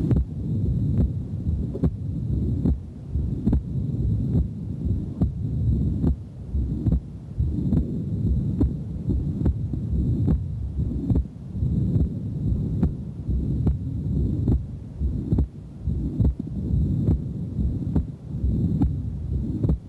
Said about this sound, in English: as is seen in severe tricuspid valve regurgitation. What you'll hear in this recording is that the second sound is reduplicated until the patient takes an audible breath in the background and the second sound becomes single.